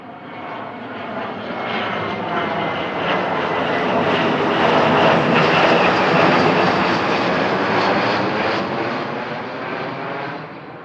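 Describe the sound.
Steady engine roar fills an airplane cabin before takeoff, a broad, even hum that swells slightly through the middle and eases toward the end, with no voices.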